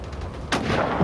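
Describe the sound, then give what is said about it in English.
Mortar fire during a military combat engagement: one sudden heavy boom lands midway through a constant low, rumbling background. “I'd expect this mortar fire to stop shortly, sir.”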